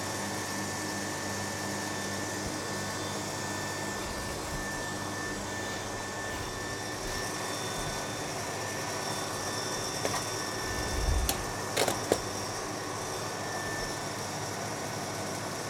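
A weaving loom runs, its reed beating the weft thread into the fabric, making a constant mechanical drone that holds steady throughout, with a few brief knocks near the end.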